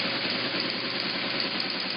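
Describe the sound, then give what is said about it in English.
Steady, loud mechanical chattering of an early teletype machine printing out information from a remote computer, a dense, unbroken clatter that runs the whole time with no pauses and no voices. “And this is what those teletype machines sounded like.”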